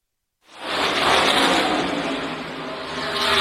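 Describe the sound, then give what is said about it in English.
Race cars roar as they lap the Dover motor speedway during a 400-lap stock car race. After a brief silence, a loud, continuous engine drone sets in and holds steady with slight swells. “Welcome back to Dover Motor Speedway. We're 76 laps into the Worth 400.”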